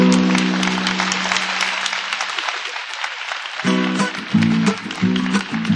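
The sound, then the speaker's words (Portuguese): An audience applauds at a live gaúcho music show. Steady, dense clapping fills the whole stretch, and accordion notes sound beneath it at the start and again in short bursts near the end. “Agradeço os aplausos”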